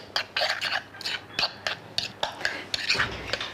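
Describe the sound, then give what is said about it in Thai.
A spoon stirs yogurt in a bowl to mix it, giving many soft scrapes and light clicks in an irregular rhythm, fairly quiet throughout. “โยเกิร์ตที่เราเลือกแล้วเนี่ยค่ะใส่ลงไปหมดเลยก็ได้คนให้เข้ากัน”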